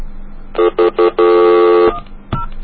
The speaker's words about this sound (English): It's 1010732 and then 1 and any number. I'll just dial some random number.